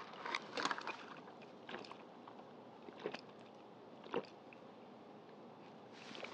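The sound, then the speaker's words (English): A grape drink is stirred in its container: faint liquid swirls and a few soft sloshing clinks come in scattered bursts over a quiet background. “All right, now we're going to give it a mix.”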